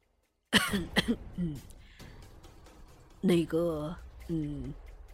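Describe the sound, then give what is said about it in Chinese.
A soft cough, voiced by a narrator for a startled, stunned master, comes as a short burst and is followed by a few brief voiced sounds. “终是轻轻咳嗽了一声”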